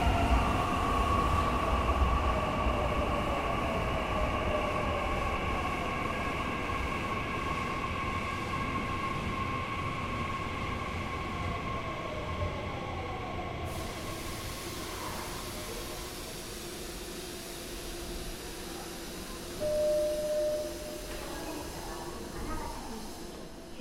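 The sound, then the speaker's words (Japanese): An express train bound for Hanabatake pulls into platform 1 of a Nishitetsu railway station, with a steady rumble, hiss and humming tones. The hiss brightens midway, and a brief whining tone rises near the end. “1番乗り場に花畑行き急行が到着しますご注意ください”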